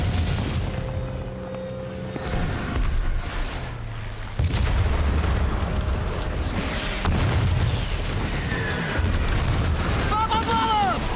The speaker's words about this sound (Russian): Повсюду раздаются взрывы. Идет массированная бомбежка.